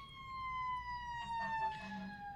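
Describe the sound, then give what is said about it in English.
A fire truck siren passes with a loud, steady wailing tone that sinks slightly in pitch, with a low rumble of traffic underneath. “Hang on, there's a fire truck coming.”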